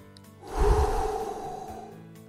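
A single long, deep breath is taken before a prayer. The airy rush swells quickly, then fades slowly over about two seconds, with no talk.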